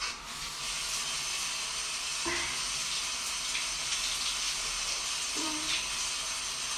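Water running from newly repaired pipes during washing: a steady, even hissing stream that holds throughout, with a couple of faint dull knocks.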